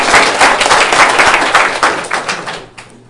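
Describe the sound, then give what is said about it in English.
A class clapping together in a classroom: dense, fast applause that holds strong for about two seconds, then thins out and fades quickly near the end. “Let's clap for all of them.”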